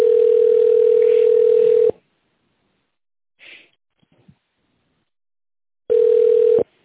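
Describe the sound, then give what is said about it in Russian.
A telephone line tone while a call connects to an operator: a steady, mid-pitched electronic tone holds for about two seconds, drops into a long near-silence, then returns unchanged. “Выполняется соединение с оператором.”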